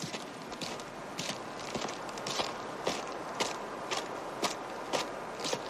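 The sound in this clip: Footsteps of people walking, a steady run of soft, regular steps over a constant background hiss, with no talk.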